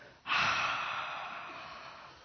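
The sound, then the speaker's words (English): One deep breath: a long, airy rush of air starts abruptly, then fades slowly over about two seconds. “Nice, another breath.”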